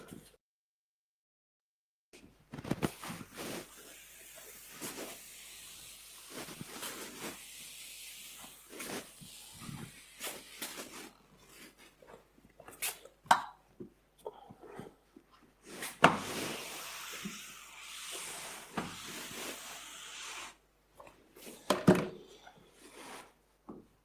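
Writing being erased from a board, with many irregular bursts of hissing, scraping strokes that come in long runs with short gaps between them.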